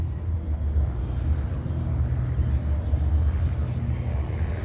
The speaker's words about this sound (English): And that's a helicopter flying over while they cross paths.